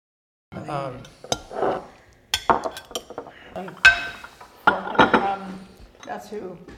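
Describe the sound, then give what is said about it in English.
Dishes clattering and knives and forks scraping plates at a dinner party, a busy run of sharp clinks and scrapes of cutlery and plateware, with people talking underneath. “Well, yes, but the actual sounds, dishes clattering, knives and forks scraping up food, that's the sound of the plateware.”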